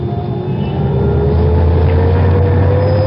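A Rolls-Royce car drives off from a Paris street where it had been parked in traffic. A loud, steady engine drone carries a whine that climbs slowly as it pulls away.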